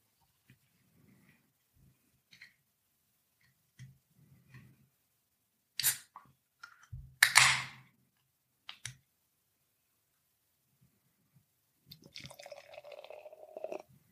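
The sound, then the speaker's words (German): A can of hazy New England IPA is opened and poured: soft clicks and handling noises, two sharp bursts from the can, then a faint, bubbly, fizzing pour near the end. “Okay, ich mach die Dose mal auf.”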